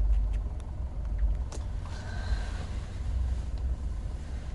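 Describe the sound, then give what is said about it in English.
A car driving through town gives a steady low rumble of engine and road noise, continuous and fairly even throughout, with no talking. “I'm driving here, driving through town.”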